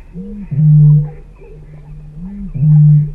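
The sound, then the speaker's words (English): Booming call of a bittern, a large heron-like bird: two deep, resonant low booms, each preceded by a softer gulping lead-in note, loud and alone. “It seems surreal that this sound known as booming could come from a bird, but this is the call of the bittern, a large heron-like species”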